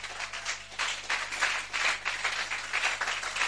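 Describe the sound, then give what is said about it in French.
A church audience applauding in acclaim for Jesus during a sermon: a steady, dense patter of many hands clapping, moderately quiet, rising and falling slightly but never stopping. “Est-ce qu'on ne va pas acclamer pour Jésus?”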